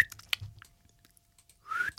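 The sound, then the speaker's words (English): Aimless, tuneless whistling imitates a man walking down a street: a short tonal note at the start, breathy mouth and lip noises, then a brief louder whistle near the end. “There was a man walking down the street the other day who wasn't whistling to a tune, just like this.”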